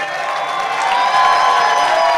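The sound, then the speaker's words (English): A crowd applauds and cheers at a ribbon cutting for a Black cultural center at a university. A steady wash of clapping and crowd noise grows louder after about a second. “Please help me applaud the folks as we cut the ribbon for the Lilly Lemon Parker Black Cultural Center.”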